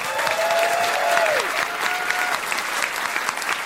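Audience applause welcoming a comedian guest, a full, sustained burst of clapping that holds strongly throughout and eases only slightly toward the end.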